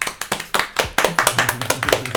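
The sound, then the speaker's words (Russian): Hosts clapping their hands together: many crisp, rhythmic claps in an even beat, loud and continuous from start to finish. “давайте похлопаем”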